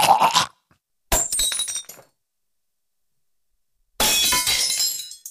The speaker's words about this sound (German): Ja, das ist entweder ein Pfandflaschenautomat oder das ist Altglas wegbringen. Du hast auf jeden Fall recht, da zerbricht etwas.